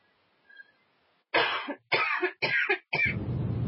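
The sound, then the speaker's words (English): Coughing: four loud, harsh coughs in quick succession, each a short rough burst separated by brief gaps, following a faint, near-silent start. “Cough, sputter. Sorry.”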